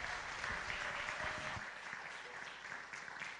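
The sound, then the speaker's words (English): Applause from a church audience for the worship team at a morning service: dense, steady clapping that fills the whole stretch and eases slightly past the midpoint. “Can you give it up for this worship team this morning one time?”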